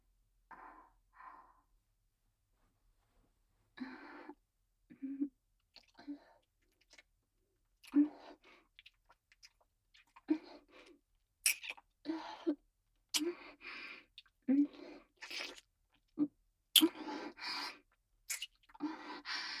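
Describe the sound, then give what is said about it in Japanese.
Soft, wet kissing sounds come from a woman kissing a muscular man: many quiet lip smacks and breathy gasps arrive in irregular bursts separated by short silences, growing denser toward the end. “君ってキス、うまいのね。経験豊富って感じ。”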